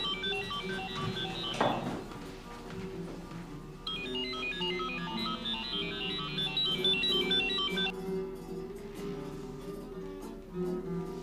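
A mobile phone ringtone plays, a quiet electronic melody cycling through bright repeating notes without pause.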